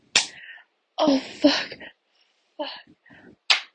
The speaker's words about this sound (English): Gonna slap my pussy some more.